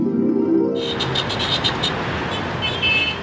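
Many car horns honking in Cairo city traffic, a dense, continuous wash of overlapping toots and engine noise with a steady, loud texture and no talk.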